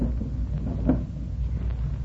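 A desk drawer is pulled open with one brief, soft scrape near the middle, above a steady low hum.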